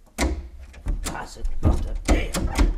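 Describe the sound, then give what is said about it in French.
Sound effect of a badly closing door: a series of several hard knocking thuds and rattles, uneven in spacing and loudness, with deep booming low ends. “pour le colonel Troublet-Chobard, de la part de son cher Maurice, une porte qui ferme mal. Vous pouvez nous faire ça?”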